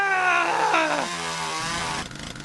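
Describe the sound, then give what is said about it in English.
A chainsaw engine runs in a steady, buzzing harmonic drone whose pitch drops partway through as it settles from a higher rev to a lower idle. “Wait, I'm gonna run my chainsaw one more time.”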